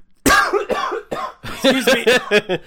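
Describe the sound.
Harsh, throaty coughing after dry cookie crumbs went down the throat, coming as a run of many rough, partly voiced bursts in quick, irregular succession, moderately loud.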